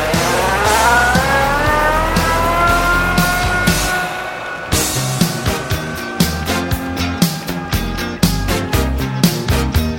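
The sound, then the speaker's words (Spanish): A car engine revs loudly and accelerates away, its whine climbing in pitch through repeated sweeps, then giving way to a steady, rhythmic pounding. “Voy a poner en marcha el coche.”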